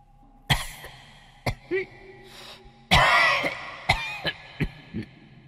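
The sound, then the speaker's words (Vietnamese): Hoarse, rasping coughing from an old person: a series of harsh bursts mixed with throat clearing, including one longer, wheezy fit midway. The coughing is heard alone, without talk. “Âm thanh ho sổ sụ vẫn cứ vang vọng. Nó nghe rõ là tiếng ho của người già,”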